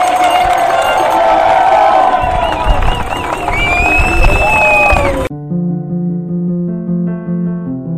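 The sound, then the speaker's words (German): A crowd cheering and whooping loudly for about five seconds, then cutting off abruptly into a sustained passage of tonal music. “Vielen Dank für die gute Stimmung und die Anfeuerung.”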